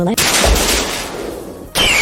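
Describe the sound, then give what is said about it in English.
Slime bullet attack effect from a monster-battling video game: a loud, harsh, gunfire-like blast that sustains and gradually fades, then a second sharp burst hits near the end. “Oh, my Asmos used slime bullet.”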